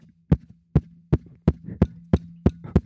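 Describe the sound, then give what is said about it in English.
Eight heavy, muffled thumps from a fist punching a microphone land at a steady, slightly quickening pace, each a deep booming knock over a low continuous hum. “that's what I'm doing, except my only purpose in doing that is me punching the microphone.”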